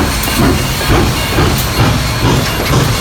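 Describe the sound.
Car-carrying shuttle train to Sylt departing at night: a loud, steady hiss and rumble with regular rhythmic thumps like wheels clacking over rail joints, with no voices.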